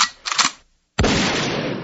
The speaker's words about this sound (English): take me out with some shotgun blasts.